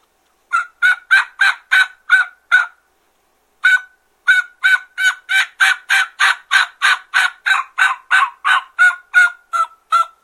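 A hunter's mouth call imitates wild turkey hen yelps, partly called from the side of the mouth. Seven sharp, nasal yelps come first, then a pause and a single yelp. A long, steady run of many evenly spaced yelps follows, loud and without talk.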